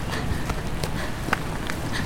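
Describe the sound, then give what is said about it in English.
Brisk footsteps on a sidewalk, a steady series of quick footfalls at an even, hurried pace over faint background noise, with no voices. “I walk briskly, desperate to be home. I maneuver through the groups of people strolling down the sidewalk, nearly running at times.”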